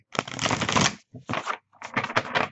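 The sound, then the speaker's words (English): Cards from a new, stiff tarot deck being shuffled and drawn, with three rasping bursts of card noise separated by short pauses and no talk. “So I'm going to draw three cards for an overview for us this week.”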